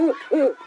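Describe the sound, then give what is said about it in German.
An eagle owl call comes from a bird-voice clock: two short, low, hooting notes in quick succession, clear and alone. “Ja, unsere größte Eulenart, der Uhu. Wartet mal, ich stelle mal den Zeiger so, dass man seinen Ruf hört.”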